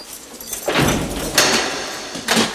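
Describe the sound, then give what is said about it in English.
Two bolts are released and a heavy cell door is unlocked, heard as a few sliding metallic scrapes and clunks in sequence. They are moderately loud and heard alone, without talk. “The guard releases two bolts and unlocks the door.”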